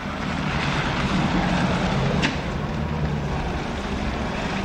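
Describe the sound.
A small black hearse van of an upscale make pulling up at a crematorium, heard as a steady, low engine rumble mixed with broad road hiss, holding an even level throughout with no voices.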